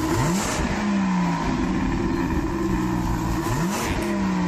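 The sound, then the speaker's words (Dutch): A V12 car engine revs hard, rising sharply in pitch twice over a continuous, loud, growling drone with no voices. “hij moest helaas ook aankondigen dat afgelopen maand de allerlaatste V12 geproduceerd is. Gelukkig hebben we wel nog het geluid.”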